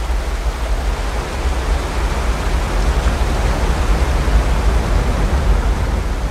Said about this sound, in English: Teddy sitting up ahead of him, overlooking the waterfall. He looks down at the swirling torrent below and wrestles with his emotions.